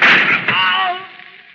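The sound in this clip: A loud gunshot from a radio drama: a sharp blast with a ringing, metallic tail that fades out over about a second.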